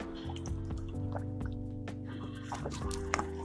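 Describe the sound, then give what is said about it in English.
Liquid sounds of someone drinking a beverage, with wet sips and drips over a steady tonal background. “excuse me. I'm just getting some liquid nourishment.”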